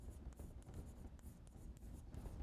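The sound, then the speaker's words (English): Notation being written on a board during a lecture: a faint series of scratchy strokes with short gaps between them, the marks coming in quick, uneven bursts. “So one more piece of notation. I'm going to write S minus I to mean what?”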